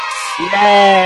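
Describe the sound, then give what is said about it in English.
A single voice imitating children cheering: a drawn-out, high whoop that swells loud and holds steady after a brief airy onset. “Screaming children. Yay! All the kids are cheering.”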